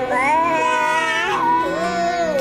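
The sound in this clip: A young child crying while being coaxed to open their mouth: two long, wavering wails with strong, high voiced tones, the first drawn out and the second rising again after a short break.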